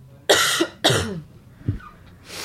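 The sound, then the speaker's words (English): A person coughs and hacks: two harsh, loud coughs in quick succession, followed by a fainter, lower throat rasp. “Coughing and hacking, bad advertisement.”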